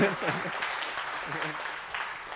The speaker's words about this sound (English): Too much applause, too much.